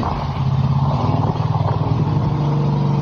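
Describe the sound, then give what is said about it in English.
A boat motor runs under a carport beside a window, its engine giving a loud, steady, continuous drone throughout with no clear change in pitch. “They pulled their boat under the carport next to a window, threw something in to break it, then used their motor to splash it with water.”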